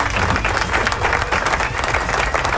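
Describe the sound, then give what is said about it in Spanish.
An applause sound effect played from a radio console: dense crowd clapping, loud and even throughout with no gaps or talk. “Ahí está, aplauso.”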